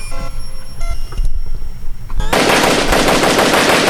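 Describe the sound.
An AK assault rifle fires a loud, dense, continuous burst of rapid automatic shots that starts abruptly about midway and runs to the end, after a stretch of thin electronic beeping tones.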